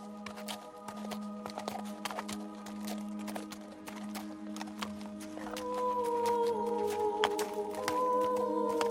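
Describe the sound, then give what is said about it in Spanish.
Hooves of a donkey walking beside an old merchant clop in a steady rhythm, many faint taps over a sustained tonal background. “Se trata de un viejo comerciante que camina junto a su burro.”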